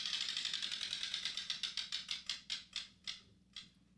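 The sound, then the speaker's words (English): A spun prize wheel gives bright, rapid ticking that starts as a fast blur and then slows, with the clicks spreading out until the last few come about half a second apart. The ticks are fairly soft and sound alone, with no talk. “Let me spin this wheel here.”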